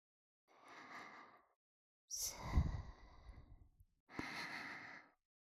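Deep, slow breathing of a person lying on their back and relaxing: three long, airy breaths separated by short silences, the middle one louder and rougher, like a sighing exhale.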